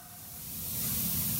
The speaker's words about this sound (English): This hiss is the sound of natural gas outdoors in a leaky spot where the gas is escaping, unburned, into the air.